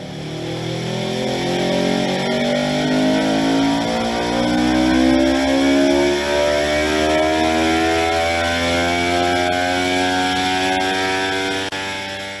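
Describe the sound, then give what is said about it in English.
A motorcycle with an aftermarket exhaust pipe is run up on a dyno, giving a loud, continuous engine drone whose pitch climbs gradually and steadily across the whole run. “Same bike, same pipe, just being run up on a dyno.”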